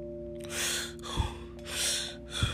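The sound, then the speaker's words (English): A deep breath drawn in slowly and let out, repeated, each airy rush swelling and fading on its own over a low steady electrical hum. “Deep breath.”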